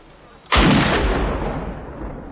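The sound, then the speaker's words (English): A weapon fires a single loud gunshot, a sharp sudden blast followed by a long rumbling decay that fades slowly. “Discharge your weapon. Do it!”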